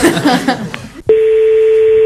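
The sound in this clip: Keypad tone from a mobile phone being dialed: after brief talk, a single steady electronic beep sounds at an even pitch and holds for about a second.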